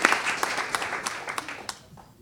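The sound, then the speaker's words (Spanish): Faint audience applause for a choir at an Argentine antifascist front presentation: scattered claps that thin out and fade away over a couple of seconds. “Un aplauso, hermoso coro. Hermoso coro.”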